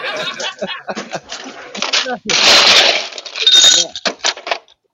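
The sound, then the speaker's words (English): Orange soda is poured into a glass, a fizzy hissing pour in two bursts amid people talking and laughing. “What the hell is that? Somebody's making a cocktail now. Oh, we got cocktails in the background. Oh, no, I'm pouring an orange soda because I've got that in my pizza.”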